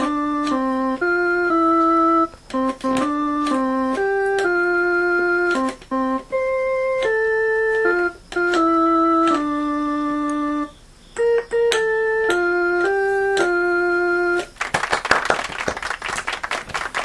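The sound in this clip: Cream-coloured Casio MT-20 keyboard, which sounds like a Casio VL-1, plays Happy Birthday on its pipe organ voice: reedy sustained electronic notes picked out one by one with short pauses, then a brief burst of clapping.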